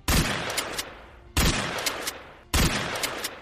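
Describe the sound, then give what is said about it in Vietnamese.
Gunfire from a smoothbore gun: three loud, sharp blasts spaced about a second apart, each followed by a rumbling decaying tail and smaller trailing cracks. “liên tục kéo động súng không nòng xoắn, khấu động cò súng bắn liên tiếp 5 phát.”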